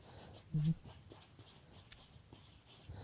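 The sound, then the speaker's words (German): Pen writing on paper, faint scratchy strokes in a few short bursts, soft and close, with one louder scrape early on. “Ich schreibe zwei Sachen auf.”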